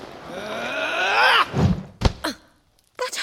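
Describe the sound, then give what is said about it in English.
A sword attack striking an opponent in the video game The Veil: a long, strained vocal groan, then a few dull, heavy thudding impacts spaced apart, with brief quiet between them. “As you can hear, your attacks are easy for me to parry as long as I'm not trying to do something else. Something else? Like what? Like hitting you.”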